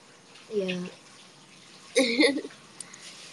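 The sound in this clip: Cold water running from a tap: a steady, low hiss throughout, with two short bursts of voices over it.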